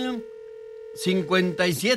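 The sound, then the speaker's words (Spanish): A caller dialing into a radio studio booth produces a steady, single-pitched telephone tone that holds unbroken for the full two seconds, alone at first, then with a voice talking over it. “Esa persona que está marcando aquí a cabina, el teléfono no sirve, no funciona, no está funcionando.”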